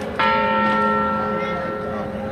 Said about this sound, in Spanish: La reivindicación mensual de la Torre del Orejón, tocando 8 campanadas, eran las 8 de la tarde, desde la iglesia de Santa María.